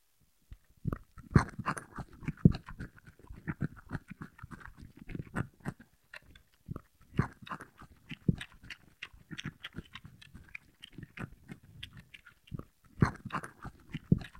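Chewing and crunching a raw bell pepper: many crisp, wet crunches and snaps in an uneven rhythm, with a few brief pauses, alone and without voices.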